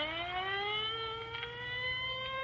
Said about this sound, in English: Well, there goes the ambulance.